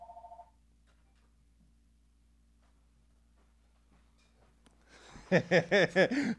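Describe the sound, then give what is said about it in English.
A telephone rings with an incoming call. A short tone sounds first, then near silence, then a quick, loud burst of about five rapid warbling ring pulses at the end. “Hey, we're getting a call.”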